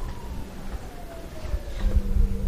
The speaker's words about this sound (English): That's my phone, actually. I thought I silenced it.